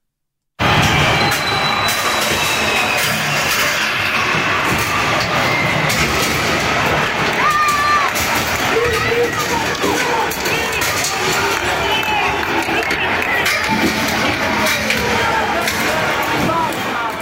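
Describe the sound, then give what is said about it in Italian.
Protesters try to force their way into a central train station to block the tracks, a dense, continuous roar of crowd commotion and movement, loud and unbroken throughout. “Questo il rumore di un momento del tentativo dei manifestanti di entrare alla stazione centrale per bloccare i binari.”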